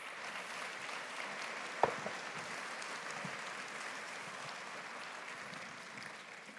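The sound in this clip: Applause from a church audience welcoming a guest speaker at a full Sunday service, a faint, even patter of clapping that holds steady throughout, with one sharp knock early on.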